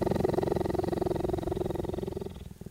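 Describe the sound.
A cheetah purrs while being petted, a loud, rough, continuous rumbling purr pulsing rapidly and evenly before fading away near the end.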